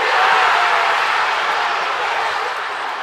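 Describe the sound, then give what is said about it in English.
Football supporters in Manchester roar and cheer as England's captain scores the winning goal against DR Congo at the World Cup, a dense, loud crowd noise that eases slightly toward the end. “That's the sound of supporters celebrating in Manchester”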